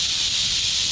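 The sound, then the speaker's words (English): A rattlesnake rattles on dusty ground in a Santa Barbara County park, a loud, continuous dry buzzing hiss that stays even and unbroken throughout. “That's the sound of a rattlesnake. It's on the ground in front of me in a dusty area of a Santa Barbara County park.”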